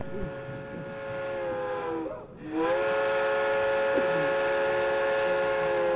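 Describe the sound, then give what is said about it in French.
A steam train whistle sounds as a train arrives on the rails in a video game: a loud, sustained harmonic tone that briefly dips and drops out midway, then returns and holds steady. “Hey, c'est quoi ce bruit? C'est le train qui arrive, restons pas là!”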